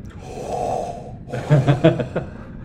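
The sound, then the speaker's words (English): Several people take a deep breath into a microphone during a sound test, giving a soft breathy rush followed by a few louder, sharper gasps and snorts. “Can everyone take a deep breath so we can test this?”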